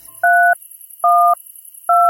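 Three telephone keypad dialing tones, each a loud, steady dual-pitch beep lasting about a third of a second, evenly spaced with quiet gaps between them.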